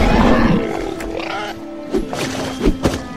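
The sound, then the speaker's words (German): A dragon in an audio drama lets out a loud, deep roar, then takes off into the air. A few shorter, fainter bursts follow the roar. “Dann brüllt der Nachtschatten laut und steigt in die Luft.”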